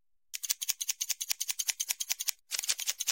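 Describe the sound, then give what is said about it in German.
Scissors snip hair in fast, even, crisp cuts, many in a row, with a brief pause before the rapid snipping resumes. “Ich habe jetzt exakt 2 mm geschnitten.”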